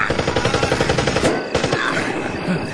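Gunfire in a radio drama battle scene about Param Vir Chakra winner Major Ramaswamy Parameswaran rattles in a rapid, continuous stream of loud, sharp cracks, like machine-gun bursts, with a brief break near the middle.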